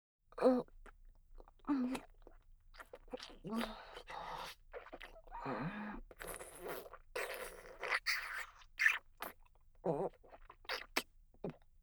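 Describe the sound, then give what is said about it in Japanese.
Eating, chewing and biting food: many wet, crunchy mouth noises in irregular bursts, mixed with breathy moans and gasps. “あ、もうダメ、やっぱ無理、待てない。いただきます。”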